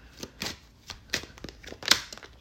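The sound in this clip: Papery flicks of a tarot card being drawn from the deck: several faint, crisp snaps and rustles at irregular intervals, with no voices.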